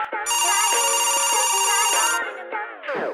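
A telephone rings for an incoming call with a bright, electronic, warbling tone that lasts about two seconds, then gives way to shorter tonal sounds.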